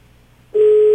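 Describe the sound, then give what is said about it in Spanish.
A telephone ringback tone on an outgoing call. After a near-silent start, a single steady, loud, pure tone begins abruptly about halfway through and holds at one pitch to the end. “ya está sonando la llamada”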